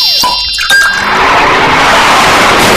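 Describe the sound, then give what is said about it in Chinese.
A drunk-driving car crash: a few brief tonal squeals, then a sudden loud impact, followed by a sustained, noisy rumble that continues to the end. “这是车祸。”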